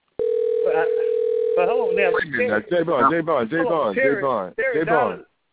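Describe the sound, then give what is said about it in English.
A telephone dial tone sounds as a steady, loud, unbroken hum for about two seconds, with a voice talking over it. Talk continues alone after the tone cuts off. “Hold on, the phone”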